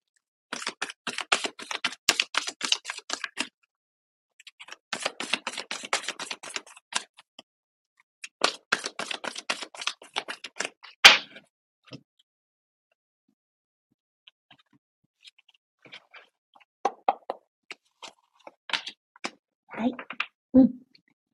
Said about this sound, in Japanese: ちょっとアドバイスカード引いていきましょうね。